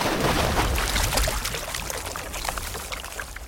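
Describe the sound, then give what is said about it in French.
Splashing water as someone dives in during an adventure in northern Canada: a loud, continuous rush and churn of water that eases slightly toward the end. “Hop, je plonge.”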